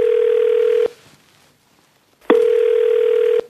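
Ringing tone of an outgoing telephone call: two long, steady mid-pitched tone bursts separated by a stretch of near-silence, no voices.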